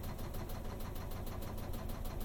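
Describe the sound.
Loud, steady rhythmic chattering and rattling from a washing machine's spin drum coasting down with no brake, an off-balance load knocking in quick regular pulses over a continuous mechanical hum.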